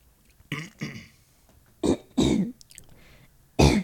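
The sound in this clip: Throat clearing from a dry throat: about five short, rough, gravelly bursts, paired in quick twos with pauses between and a final one alone, fairly loud against near silence.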